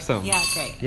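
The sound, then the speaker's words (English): A spoon clinking against an empty ice cream bowl: a brief, bright ring or two under people talking. “That, do you hear that sound? That was the sound of an ice cream bowl. That was empty because I'm broke.”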